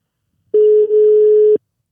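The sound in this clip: A telephone ringing tone when placing a call: one steady, mid-pitched tone lasting about a second, heard alone against silence.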